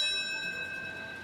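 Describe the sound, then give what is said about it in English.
Bell tolling at the World Trade Center in New York City during a morning moment-of-silence memorial for September 11, heard as a faint, steady ringing resonance with humming overtones that hold and slowly fade. “It's the sound of a bell tolling at the World Trade Center in New York City at 8:46 this morning”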